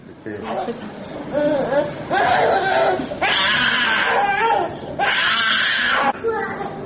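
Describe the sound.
A one-year-old boy cries relentlessly in the hemodialysis room of a mother and child center in Bishkek, where he is connected for dialysis after two weeks unable to pass urine. The loud, high, wavering wails come in several long bursts with brief breaks.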